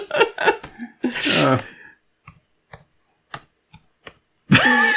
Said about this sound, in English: I'm going to type into Google small fucked up toast.